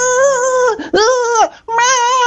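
A child cries on a beach in three loud, drawn-out wailing sobs of wavering pitch, separated by short breaks.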